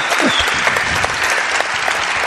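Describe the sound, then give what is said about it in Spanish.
Audience applause for a guest at a live Spanish event: dense, steady clapping that stays loud and even through the whole short clip. “Pido un aplauso para él.”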